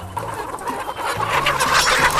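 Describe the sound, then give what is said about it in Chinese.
A rooster clucks in a run of low, throaty bursts while being caught by hand. The clucking is steady and fairly loud throughout. “不，公鸡还是不要挑衅它了，对，公鸡太凶了，跟公鸡在咬人。”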